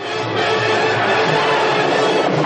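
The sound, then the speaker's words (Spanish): Crowd roaring and cheering at a horse race as a horse crosses the finish line first, a dense, loud, steady wash of many voices that holds for the whole stretch. “Mary Poppins entra la primera en la meta. El público la vitorea.”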